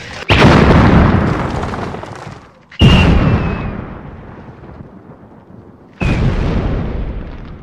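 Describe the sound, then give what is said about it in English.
Magical fire explosions summoned by an enchanter burst out three times, each a sudden loud boom that trails off into a long rumbling roar before the next one strikes. “What manner of man are you that can summon up fire without flint or tinder? I am an enchanter.”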